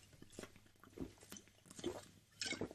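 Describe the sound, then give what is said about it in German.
A sip of a drink, quiet and close, made up of soft wet mouth clicks and a few small gulping sounds spread over a couple of seconds. “Entschuldigung, ich brauche einen Schluck.”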